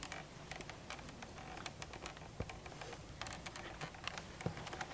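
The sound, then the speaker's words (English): Faint, scratchy strokes and light taps of someone drawing a picture of a church, arriving in irregular bursts with short gaps and no talk over them. “Let me see if I can draw a picture for you. Makes sense. I'll draw the church I grew up in Indiana.”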